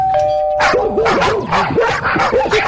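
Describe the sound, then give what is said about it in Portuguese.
A TV program's electronic doorbell chime rings once, then a small dog yaps in a rapid series of sharp, high barks that continue to the end. “Essa campainha era desse programa.”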